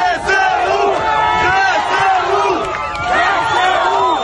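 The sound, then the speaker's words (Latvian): A large, jubilant crowd in Kherson chants "Kherson is Ukraine" while cheering the arrival of Ukrainian army units. Many voices roar a loud, continuous, rhythmic chant that rises and falls in repeated phrases. “Sajūsminātie hersonieši sauca Hersona ir Ukraina.”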